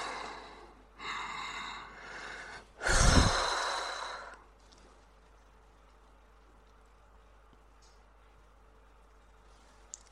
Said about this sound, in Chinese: 回来了，深呼吸。